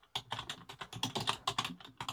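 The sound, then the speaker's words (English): Rapid typing on a computer keyboard, with many crisp key clicks in a quick, uneven rhythm and no voices. “I'm typing.”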